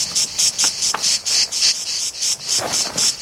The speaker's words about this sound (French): La cigale, dès qu'elle sent votre présence, elle s'arrête de chanter. Alors tu peux toujours courir pour la rattraper. Alors le secret, c'est qu'elle s'habitue à vous et qu'elle recommence à chanter.